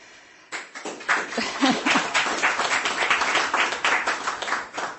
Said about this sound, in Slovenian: No, lepo, hvala za ta aplavz.